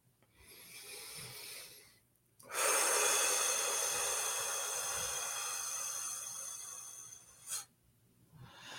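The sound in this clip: A deep breath drawn in during a guided relaxation, a long, loud, breathy rush lasting about five seconds, preceded by a softer breath and followed by a short puff of air.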